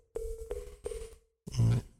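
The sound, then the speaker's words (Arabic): Telephone line tone as a caller is connected to a call-in line: three short, steady beeps at an even rhythm, then a louder burst of rough line noise with a low hum. “عند اتصال الأخ سعد، تفضل.”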